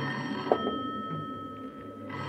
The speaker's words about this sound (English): Again the phone. This time, it doesn't stop.